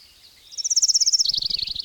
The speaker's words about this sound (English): Yeah, the fucking birds.